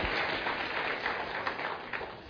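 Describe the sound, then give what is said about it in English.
Audience members give a panel a round of applause, a soft, brief burst of clapping that thins a little toward the end. “Let's have a nice round of applause for our panel here.”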